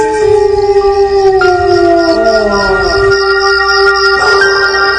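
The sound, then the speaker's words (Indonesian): A dog howls at night, a loud, drawn-out, wavering tone that slowly slides downward in pitch and holds for several seconds over faint background hiss. “Sesekali ada suara lolongan anjing di malam hari.”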